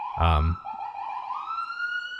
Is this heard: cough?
no

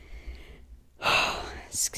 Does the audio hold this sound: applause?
no

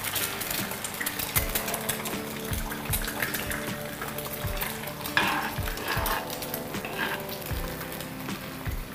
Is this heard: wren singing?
no

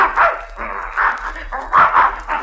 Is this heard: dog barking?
yes

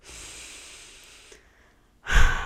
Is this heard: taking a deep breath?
yes

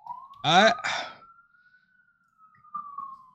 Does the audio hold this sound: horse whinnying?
no

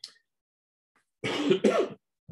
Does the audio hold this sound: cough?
yes

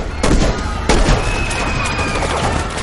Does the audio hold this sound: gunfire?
yes

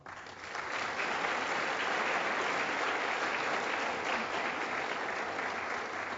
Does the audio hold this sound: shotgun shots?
no

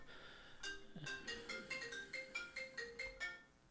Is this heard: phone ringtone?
yes

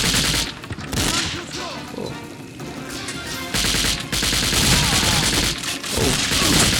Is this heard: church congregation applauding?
no

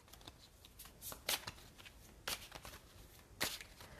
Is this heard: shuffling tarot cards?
yes

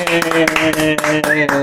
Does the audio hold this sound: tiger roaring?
no

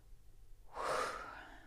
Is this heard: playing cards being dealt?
no

